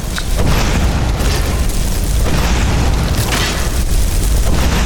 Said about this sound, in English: I'll only shoot one fireball at a time from now on.